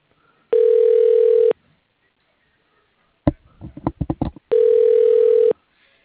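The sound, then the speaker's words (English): A telephone ringback tone while an office call is transferred: two steady, one-second electronic rings separated by a pause. A quick cluster of clicks and taps falls between them. “Transferring call. Please hold.”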